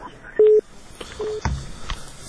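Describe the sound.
A telephone being dialed, with two short, steady keypad tones spaced a fraction of a second apart. Faint voices and other noises sit around the tones.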